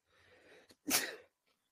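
One loud, sharp sneeze bursts out after a short intake of breath, then fades into silence.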